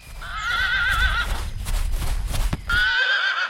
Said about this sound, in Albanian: Kryetari i jep Zotit kalin e tij.